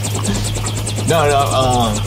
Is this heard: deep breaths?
no